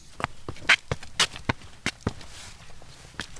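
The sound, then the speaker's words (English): Footsteps climbing garden steps up a mound to an arbour: a series of sharp, irregularly spaced footfalls, fairly quiet, with no talk over them. “Can we walk up the steps up the mound and to the arbour? Yeah, let's go.”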